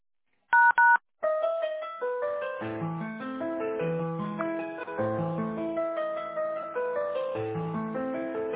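Two short touch-tone dialing beeps as a phone call is transferred to a company's warehouse line, followed by steady electronic hold music playing alone.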